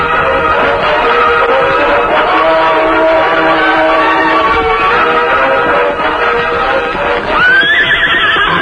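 Horses whinny and gallop away in a Western scene, a dense, continuous, loud din of hoofbeats and neighing that ends in a high, rising whinny.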